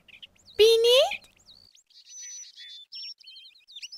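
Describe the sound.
A pet sparrow chirps in a dubbed animated cartoon: a short, louder tonal call comes early, followed by a string of high, thin chirps and whistles separated by brief silences.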